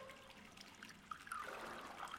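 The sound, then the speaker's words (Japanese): Sake pours from a bottle into a small ochoko cup filled right to the brim, a quiet, thin trickle of liquid splashing softly and continuously. “私にも注いでくれるの？ありがとう。”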